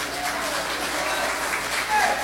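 Applause fills the whole stretch as a steady, dense wash of many hands clapping at an even level. It swells slightly near the end.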